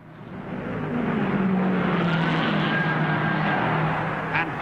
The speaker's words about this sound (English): Doing 145 miles an hour per lap at the end of the fourth lap. Blistering pace.